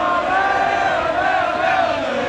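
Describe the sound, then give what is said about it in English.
Thousands of football fans cheer at the FIFA Fan Fest at Fort York in Toronto during a World Cup match: a loud, sustained roar of many shouting voices stays steady throughout. “The crowd of thousands of supporters at Fan Fest went all out for every goal.”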